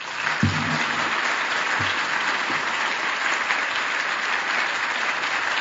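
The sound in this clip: An audience claps to welcome two speakers onto the stage, a thick, sustained round of applause from many people that stays level throughout, with a couple of heavier low thumps near the start.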